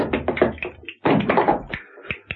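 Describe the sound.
Knocking on an apartment's open front door: sharp taps and dull thuds come in irregular quick bursts, followed by a few separate knocks.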